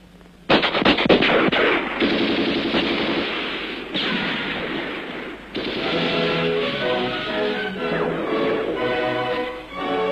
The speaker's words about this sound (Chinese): 敌人的枪声现在却成了祝贺起义成功的鞭炮。